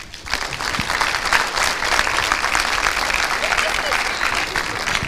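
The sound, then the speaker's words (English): An audience gives a speaker a warm welcome with steady, loud applause. Dense clapping holds evenly from start to finish. “let's give a big welcome and a big hand to Todd Murray”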